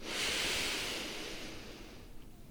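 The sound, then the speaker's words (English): A deep inhale during a guided breathing exercise: a soft, airy rush of breath that swells early, holds steady, then slowly thins out over a couple of seconds, with no voices over it. “Breathe with me, yeah? Inhale.”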